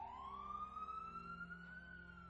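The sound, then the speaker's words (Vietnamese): Ambulance siren wailing in the distance, a single faint, steady tone that glides slowly upward in pitch throughout. “Phía xa xa tiếng còi xe cấp cứu đang dần dần tới gần.”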